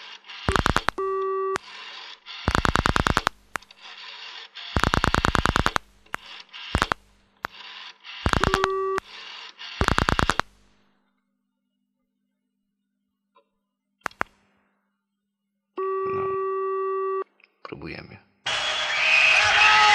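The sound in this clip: Telephone line tones sound while a long-distance number is dialed: a run of loud, evenly repeated tone bursts, then a quiet pause with a few clicks, one longer steady tone, and finally a burst of noise.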